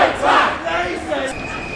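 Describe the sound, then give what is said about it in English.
A crowd at an increasingly militant street demonstration in London chants, blocking the road. The voices come as a brief, muffled burst of shouting. “This is becoming an increasingly militant demonstration, as you can probably hear from the chants in the background.”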